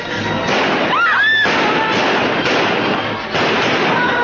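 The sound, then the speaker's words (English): Gunshots in an old film scene, a policeman firing at a man running away; a few sharp bangs break through a loud, dense soundtrack. “Bert the cop actually shoots at George when he's running away and is no threat to anyone.”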